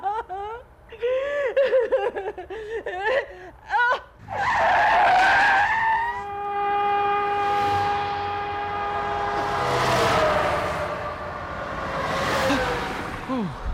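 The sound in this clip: Car tires skid as the car nearly rear-ends a truck. After a few seconds of talking voices, a long, loud, shrill screech with strong tonal streaks holds for several seconds.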